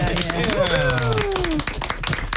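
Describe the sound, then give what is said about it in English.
Applause from a small group, a steady patter of hand claps continuing throughout while people talk over it. “Can we just give you a round of applause?”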